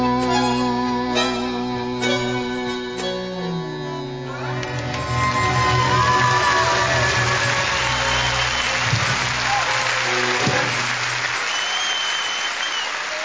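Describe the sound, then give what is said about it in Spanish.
Live song ends on held, ringing notes, then an audience ovation swells in around the middle and carries on as dense, sustained clapping, briefly overlapping the fading music before continuing alone. “Con esa ovación bien merecida”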